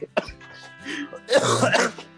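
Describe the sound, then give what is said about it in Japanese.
Coughing from someone with asthma who has had a persistent cough for about two weeks: a harsh, rough burst of coughs after a few brief voiced sounds. “2週間前ぐらいから咳止まらんくて、コロナじゃなくても、 はいはいはい、 あの、喘息の方で、ちょっと、お聞き苦しい点があるかと思うんですけれど。”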